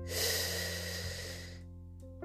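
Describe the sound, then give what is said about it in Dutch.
A deep breath drawn in through the nose makes a steady, breathy rush that swells early, then tapers off and stops, with no talk. “Adem even diep in”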